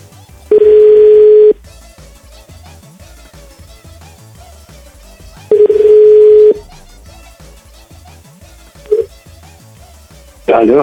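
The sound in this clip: A telephone call is dialed and the line tone sounds: two long, steady, mid-pitched tones about five seconds apart, each lasting roughly a second, with a voice and other sounds continuing in the gaps between them.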